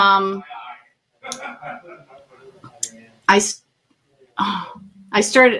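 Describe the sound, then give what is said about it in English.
Throat clearing and coughing: a few short, harsh bursts of throat clearing and coughs, mixed with some voiced sounds and quiet gaps. “sorry about that. I got something in my throat.”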